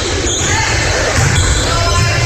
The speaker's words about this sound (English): Ware will dribble around.